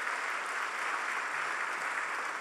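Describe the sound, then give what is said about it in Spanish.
Dense, steady applause from an audience at an award ceremony as a nominee is honoured, continuous clapping at an even level throughout with no break. “Un aplauso para él.”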